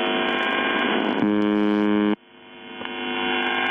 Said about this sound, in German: Auf 4625 Kilohertz, also Kurzwelle, sendet seit den späten 70ern eine Station, die nichts anderes tut, als diese Geräusche auszustrahlen.